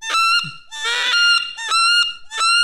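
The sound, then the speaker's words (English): A wood duck calling in flight gives a series of loud, high-pitched, squealing whistled calls. The calls come in short bursts, with one longer, harsher call in the middle, and are heard alone. “what is that sound? That's a wood duck. Flying.”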